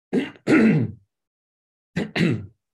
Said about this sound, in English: No, it's just phlegm.